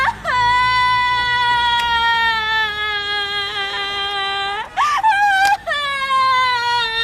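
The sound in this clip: A woman cries and wails loudly in long, sustained, high-pitched sobbing cries that carry on almost without a break, pause briefly near the end, then resume.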